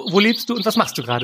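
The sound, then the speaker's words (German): Small birds chirp in the tall trees outside a city balcony in Cologne, giving faint, high tweets behind a person who talks throughout. “Ich sitze gerade auf meinem Balkon und die Vögelchen, die du hörst, die kommen von den riesengroßen Bäumen, die hier direkt vor meinem Balkon sind.”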